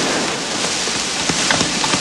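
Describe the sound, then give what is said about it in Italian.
Heavy rain pours during a storm, a dense and steady hiss with a few sharper drops popping out near the end. “non ho mai visto la tempesta così dal giorno che mi sono sposato!”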